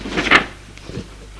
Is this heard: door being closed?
yes

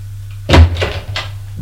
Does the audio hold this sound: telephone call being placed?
no

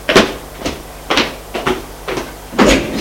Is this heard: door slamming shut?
yes

